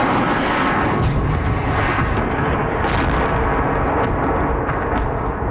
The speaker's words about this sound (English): That's the sound of drones flying through the sky over Kyiv.